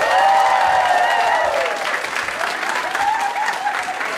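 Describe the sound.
A live studio audience at Fisher College in Boston applauds during an on-campus show. The clapping is loud and sustained, peaks early, then eases slightly, with a voice briefly heard over it at the start.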